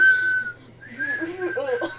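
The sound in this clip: Whistling of a children's cartoon theme tune, a clear, reedy melody that starts on one held note, then moves through wavering, shifting pitches.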